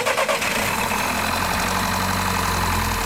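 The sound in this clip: A car engine with a deeply discharged battery near 10 volts, jump-started with leads, runs briefly uneven at first and then settles into a steady, even idle hum.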